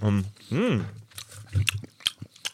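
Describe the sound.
Someone bites into and chews a small broken-off piece of mild, plain chocolate, making several crisp snaps and crunchy clicks. A voice is heard briefly before the bites.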